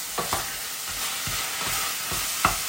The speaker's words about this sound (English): mince beef is sticking, by the way, just give it a quick stir.